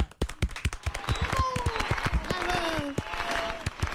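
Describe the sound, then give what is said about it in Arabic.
Audience clapping for a guest named as Amou Bechra on a Tunisian TV programme: loud, dense, many sharp claps that hold steady throughout, with voices rising above it. “توا باش نعملوا تصفيقة كبيرة كبيرة كبيرة على عمو بشرة.”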